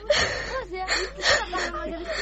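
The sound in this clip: A person crying and whimpering: a wavering, strained voice rising and falling in continuous sobbing bursts with catching breaths, fairly soft and without clear words.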